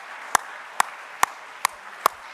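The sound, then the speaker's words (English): An audience claps together during a church service, five sharp, evenly spaced claps standing out over a steady wash of crowd noise. “Let's stand and clap our hands for the word of the Lord, shall we?”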